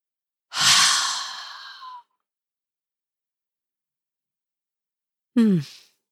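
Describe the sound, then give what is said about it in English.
A deep cleansing breath during a grounding relaxation exercise: a long, loud, open-mouthed exhale with a sigh-like voiced edge, then after a silent pause a short second breath. “We took a couple cleansing breaths.”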